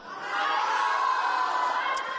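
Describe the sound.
An audience shouts yes together in a vote by voice, mostly younger voices: one loud, sustained crowd shout that swells quickly and holds for about two seconds.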